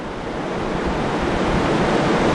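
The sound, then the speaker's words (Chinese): Tidal bore waves surge onto mudflats as a one-line and cross tide advance toward an embankment, a steady, dense roar of rushing water that holds even throughout. “先头部队已经是离我们越来越近了，让我们一起来期待它今天接触到坝身之后碰撞产生的形态。现在可以看到部分潮水的先头部队已经漫上了滩涂，”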